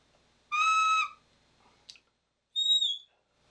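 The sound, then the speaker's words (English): Two short dog training whistle blasts, the first a steady, rich, harmonic tone lasting about half a second, the second higher, thinner and purer, separated by a quiet gap with a brief faint click between them. “So if the dog hears the very first note of each of these whistles,”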